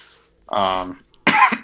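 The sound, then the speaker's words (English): Coughing from breathing in UV resin fumes at a fly-tying table: a throaty, voiced catch and then a harsh, breathy cough burst, both loud and close together. “sorry, a little bit of cough, but, it's from the UV resin.”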